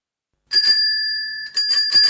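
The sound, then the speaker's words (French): A small bicycle bell rings out clear and bright. One sustained ring fades slowly, then a few quick, jangling rings follow in succession, alone without voices. “Et nous voici, comme promis, à bicyclette. J'aimais bien cette petite sonnette.”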